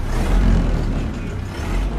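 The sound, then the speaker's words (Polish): Car engines rumble at a classic and sports car meet with Ferrari and Lamborghini sports cars alongside a 1929 Ford. The noise is a loud, continuous low drone with no clear individual revs and no voices. “I jak widać, możemy tutaj spotkać przeróżne auta, od tych najbardziej takich sportowych jak Ferrari czy Lamborghini, po te takie bardzo klasyczne jak Ford z 29 roku.”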